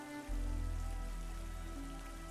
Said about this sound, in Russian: Просто на улице дождь и мрак